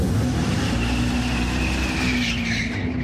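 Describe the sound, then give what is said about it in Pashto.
A fully electric Dodge Charger accelerating with its rubber tyres squealing, a loud, continuous roar of motor and tyre noise, with a high squeal rising through it near the end. “دا یو بشپړ برېښنایي موټر دی. په داسې حال کې چې د ربړي ټایرونو د سوځېدو بوی او غږ حقیقي دی”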